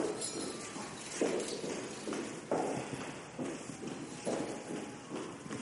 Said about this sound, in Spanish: La señora baja unas escaleras.